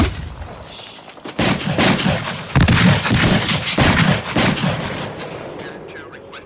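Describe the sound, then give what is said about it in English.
Gunshots fired: several loud, sharp reports with heavy rumbling between and after them. “Requesting more additional units for shots fired.”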